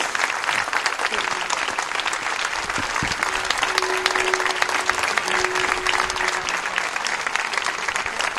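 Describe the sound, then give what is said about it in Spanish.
A crowd applauds without a break at an open-microphone protest gathering, dense and steady clapping that runs the full length at an even loudness, with a faint sustained tone in the middle section. “Un aplauso para la mamá de Coco, una luchadora.”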